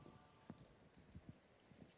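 Rain falls on a cathedral rooftop in Milan as a faint, steady patter, with a few slightly sharper drops standing out from the continuous hiss.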